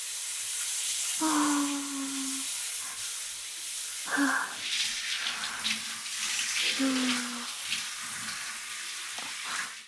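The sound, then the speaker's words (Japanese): Running water rinses freshly cut hair, a steady broad hiss of spray that continues throughout with small shifts in loudness. “とりあえずさっき切った髪、このまま流しちゃいますね。”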